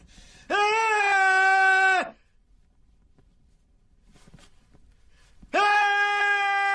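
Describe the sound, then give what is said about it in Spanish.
A man screams while trapped lying in a wooden box: two long, loud, sustained wailing cries with a steady strained pitch, separated by a quiet stretch with faint rustling. “Nervioso se quita el trapo de la boca y grita inmóvil.”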